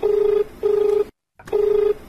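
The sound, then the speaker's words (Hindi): A telephone rings for an incoming call on a farmers' phone-in show. A steady buzzing tone pulses twice, goes silent briefly, then pulses again, each burst even and loud, with no voices. “एक phone आए गल बा”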